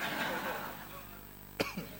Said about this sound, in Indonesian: Batuk tuh.